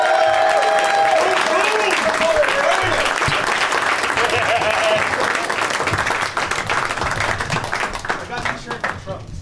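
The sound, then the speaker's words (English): Audience applause welcoming guests onto the stage at a live comedy show: loud, continuous clapping with voices over it, thinning into scattered claps over the last few seconds. “Please give a big warm welcome to Chris Cubis, Mike Tully, and Joe DeRosa.”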